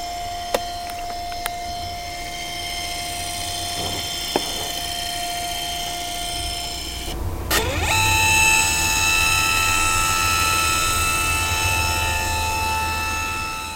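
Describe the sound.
A scanner running for text recognition gives a steady mechanical hum with sustained tones and a few faint clicks early on. Partway through, the tone shifts higher and the running grows slightly louder.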